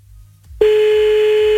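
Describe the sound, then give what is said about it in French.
A telephone tone sounds as a call is placed, a single steady, clear pitch that starts abruptly after a quiet low rumble and holds unchanged to the end. “Allez hop, c'est parti, on y va, on appelle maintenant là”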